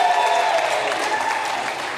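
A church audience applauds to welcome a member back from sabbatical, a steady, full burst of clapping that continues evenly for about two seconds.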